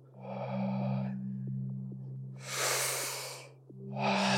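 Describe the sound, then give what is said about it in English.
Deep breaths from a guided breathing exercise, drawn through the nose or mouth. Three strong, airy breath sounds stand out over a low, steady hum, with short pauses between them and no talking. “So it's a deep inhale and a lighter exhalation.”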